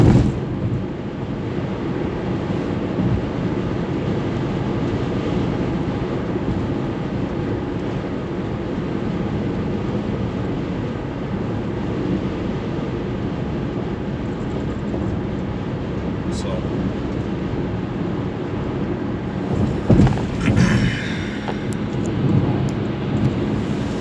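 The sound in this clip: Steady drone of a car driving on a long road trip, a constant low engine and road-noise rumble throughout, with a few brief bumps and thuds toward the end.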